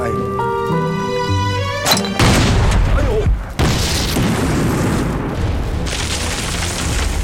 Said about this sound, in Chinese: 打中了， 打中了！ 谁开的炮？